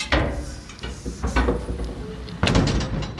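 An outhouse toilet door being opened, with a few wooden knocks, rattles and scraping creaks, then a louder clattering burst near the end.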